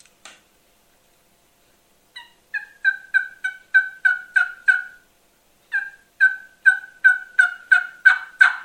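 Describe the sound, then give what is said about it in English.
Soft hen turkey yelps made on a reed mouth call, with very little rasp: two long runs of evenly spaced, clear yelps, each run building in loudness, after a single faint note. “This is just kind of a soft yelp, very, very little rasp. And the reason there's not much rasp when I do this particular type of yelp is because I'm stopping at top reed.”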